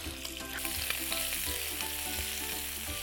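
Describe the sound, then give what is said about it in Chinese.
Large chunks of shrimp stir-fry in a pan with green beans, giving a steady bright sizzle broken by occasional soft knocks of stirring. “好，这个就是虾子熟就可以了。我们再炒一下，因为今天虾子切的比较大块。”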